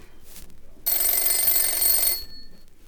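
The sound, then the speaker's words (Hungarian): A telephone rings with one bright, shrill burst of bell ringing lasting about a second, then stops. “Ez a telefon, ez egy budapesti vállalati irodában van, az a telefon pedig egy bécsi szálloda portáján.”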